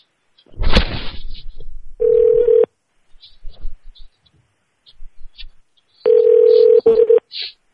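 Telephone dial tone and keypad dialing: a click at the start, then two steady, mid-pitched dial-tone stretches with a few short, faint beeps between them and more brief tones near the end.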